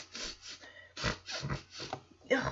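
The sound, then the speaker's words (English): A voice imitates someone sniffling right in another person's ear: a quiet series of short, breathy nasal snuffles in an uneven rhythm, ending with a sharper, louder sniff. “Michelle comes down the stairs ready to just sniffle all in Stephanie's ear. She sits right next to Stephanie and practically goes,”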